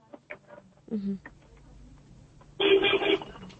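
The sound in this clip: A telephone rings with an incoming listener call on a phone line: one burst of loud, buzzy ringing near the end, after some brief, quieter voice-like sounds.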